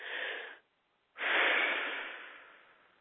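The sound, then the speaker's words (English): A deep breath taken during a guided meditation: a short airy rush, a brief pause, then a longer soft breath that slowly fades, quiet and on its own. “Now, and take a big deep breath.”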